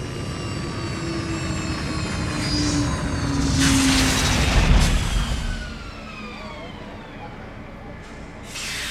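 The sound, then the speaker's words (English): A large spacecraft sets down on an elevated docking platform beside a transportation depot, with a deep engine roar. The roar swells into a louder rushing peak midway, then settles back to a steadier, quieter drone. “The Beetle Nebula settled down to a landing on an elevated docking platform adjacent to the blue, mushroom-shaped transportation depot. The maneuver was smooth and gentle for a craft so large.”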